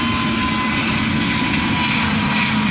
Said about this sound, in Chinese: 这是 C-99 首架机在首飞前进行的一次滑行试验，这也是 C-99 第一次依靠自己的动力行走。